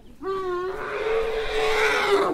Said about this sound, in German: In einer langen Reihe kommen 12 kleine Elefanten zum Futterplatz.